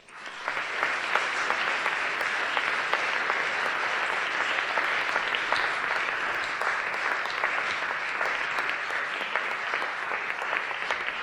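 Applause welcomes author Witi Ihimaera to the stage at a book event. The clapping swells in quickly, then holds as a steady, even patter of many hands for about ten seconds, with no talking over it.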